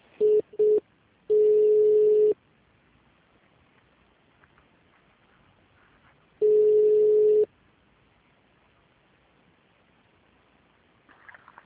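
Telephone line tones while a hospital call is being transferred: two short beeps, then a longer steady tone at the same pitch, a pause of near silence, and another long tone, followed by faint line noise.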